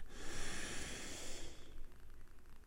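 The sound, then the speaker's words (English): A slow breath drawn in through the nose during a guided relaxation exercise. A soft, airy hiss lasts about a second and a half, then fades to near quiet, with no talking. “we're going to breathe in through our nose and hold for a few seconds. Let's breathe in.”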